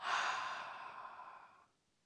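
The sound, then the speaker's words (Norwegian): A single slow breath out through the mouth during a calm relaxation exercise before sleep, a soft airy rush that is faint and gradually fades away over under two seconds. “Pust inn gjennom nesa, og ut gjennom munnen.”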